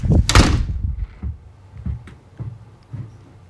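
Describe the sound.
A door bangs shut as someone leaves a house: one loud, sharp slam, then a few softer, dull thuds that fade into quiet.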